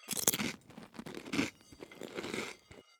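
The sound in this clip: Crunching bites of a vegan dish being tasted: a few crisp, brittle crunches and chewing scrunches, fairly faint and irregular, with no talk.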